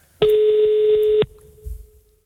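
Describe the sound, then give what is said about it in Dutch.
A telephone tone as a number is dialed for a call: one loud, steady electronic beep lasting about a second, then a faint lingering tone and some low rumbling. “Dus we gaan nu eens even bellen.”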